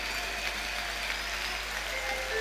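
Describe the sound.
Applause from the audience at a live concert in Buenos Aires in 1990: dense, steady clapping at an even level throughout, with no breaks.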